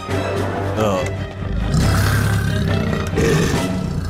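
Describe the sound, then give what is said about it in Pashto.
A tiger roars as it bursts out of a forest to attack a village. The roaring is loud, rough and continuous, a deep rumbling growl that fills the whole clip and dips only briefly before surging again. “ناڅاپه له ځنګله څخه یو پړانګ راغی او په کیلي حمله کوله.”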